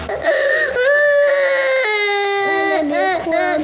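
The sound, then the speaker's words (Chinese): A child cries loudly in wailing, whimpering sobs, the high voice wavering and sliding in pitch through one long sustained cry followed by shorter broken sobs. “别哭了，疼不疼呀？”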